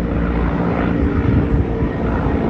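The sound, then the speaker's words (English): Helicopter flying over the city of Dhaka, Bangladesh: a steady, loud engine and rotor roar that holds at an even level for the whole stretch, with no voices. “That's the sound of a helicopter flying over Dhaka, the capital of Bangladesh.”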